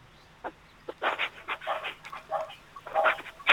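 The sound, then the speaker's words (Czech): A dog barks faintly through a telephone line, many short, muffled barks in an irregular run. The sound is thin and band-limited against a low hiss. “Teď tam slyším ještě štěkání psa vzadu.”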